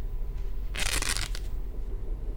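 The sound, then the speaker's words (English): Pantyhose ripping: one sharp, harsh tear of thin nylon fabric lasting about half a second, then a shorter tear, over faint background noise. “did you like getting your pantyhose ripped?”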